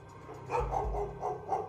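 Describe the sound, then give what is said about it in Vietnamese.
A dog at a nearby house barks several times in quick succession, muffled and fairly low, over a steady background noise. “cho đến khi có tiếng con chó nhà gần đó sủa giống cả lên.”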